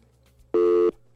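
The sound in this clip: A telephone busy signal sounds after a caller's line drops: one steady, loud electronic beep lasting about a third of a second over a faint low hum.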